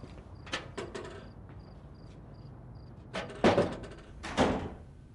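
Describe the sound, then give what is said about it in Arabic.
A door is opened: a quick run of light clicks and rattles, then two louder thudding bursts of the door moving, fairly faint overall. “افتح لي الباب.”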